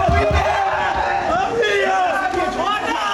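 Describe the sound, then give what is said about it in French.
High school students at a lycée in Nîmes cheer and shout over their baccalaureate results. The crowd noise is loud and continuous, with whoops rising out of the roar, enough to saturate the microphone. “Dont ces Nîmois au lycée d'Alzon qui ont fait saturer le micro ici.”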